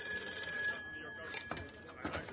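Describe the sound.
A telephone rings with a faint, bright, sustained trill that sits quietly under people talking.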